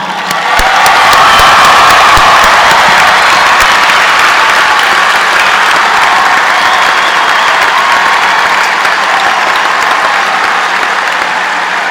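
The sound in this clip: A large commencement audience at Carolina applauds the mothers present on Mother's Day. Loud, sustained clapping swells in at once and holds for about twelve seconds, with cheering mixed into the roar.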